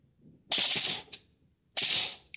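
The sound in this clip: A toy gun at a mall shooting gallery fires two hissing, snappy bursts, each followed by a short, quieter click.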